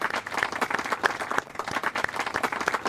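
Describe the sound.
A live studio audience applauds a guest joining a sports radio show, with dense, continuous clapping that stays steady throughout.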